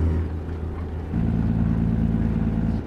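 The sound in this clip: Engine drone of a powerful truck speeding in high gear in a truck-driving simulator game, a steady low rumble that steps up to a louder, fuller hum partway through and holds evenly.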